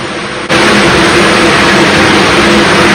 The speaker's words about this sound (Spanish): Inició el proceso. Arrancó el motor.